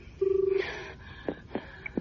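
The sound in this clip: A telephone ringing tone heard on the line after a number is dialed: one short buzzing, pulsing ring, followed by a few faint clicks and knocks.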